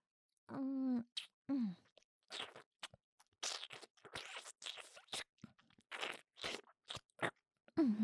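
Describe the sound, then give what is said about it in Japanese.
Crunchy food being chewed: many sharp, irregular crunching bites, with a few short voiced hums mixed in between them. “どう？マミミうまいでしょ。”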